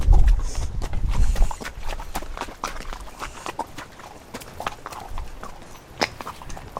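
Hooves of horses walking through a wet, soggy spot on a trail ride. Heavy, loud low thuds come in the first second and a half, then softer, irregular steps continue, with no talk.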